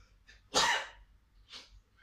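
A single quiet sneeze: one short, sharp burst, followed a moment later by a fainter breathy sound, with no talk.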